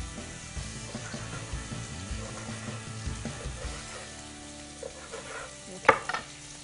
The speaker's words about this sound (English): We just want that to crisp up. There's nothing quite like the taste of some crispy bacon.